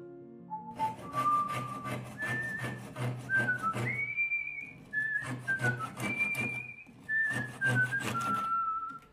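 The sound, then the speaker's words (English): A man whistling as he works in a backyard wood shop, carrying a slow, wandering tune of long, clear sustained notes that step up and down in pitch, soft and steady throughout. “I could hear, I assumed, the woman's husband working in a backyard wood shop, whistling as he worked.”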